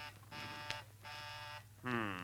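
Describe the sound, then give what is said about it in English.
A doorbell buzzer sounds in a few harsh, rasping bursts separated by short gaps. The buzzing is fairly faint and has a rough, reedy timbre. “There's the buzzer.”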